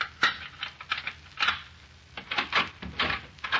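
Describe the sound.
Clicks, knocks and rattles of an apartment door being unlocked and opened come as a quick, uneven series of sharp mechanical sounds with short gaps between them. No voices are heard.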